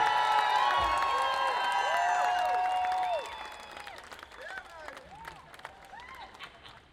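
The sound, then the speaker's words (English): An audience applauds and cheers for a performer at a live birthday show. Loud, dense clapping with whoops lasts about three seconds, then drops to lighter clapping and scattered cheers. “Give the biggest applause of the evening for Mr. Rock and Roddy”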